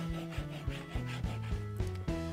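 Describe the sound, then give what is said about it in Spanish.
Squeaky rubbing as a paper figure is glued and pressed onto cardstock: many short strokes, each carrying a tonal squeak that steps between pitches, fairly quiet and alone. “Vamos a pegar nuestra figurita formada a esa cartulina.”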